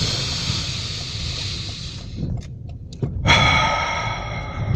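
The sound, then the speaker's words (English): A deep breath drawn in through both nostrils: a long, airy nasal rush of air that breaks off briefly, then returns as a louder, fuller intake to the end. “Breath number two. Ready? Go. Nice and deep.”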